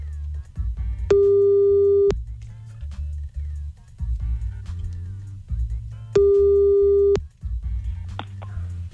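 Telephone busy tone heard while calling a man back after a cut-off call: two long, steady mid-pitched beeps about five seconds apart, each lasting roughly a second, over a low humming background.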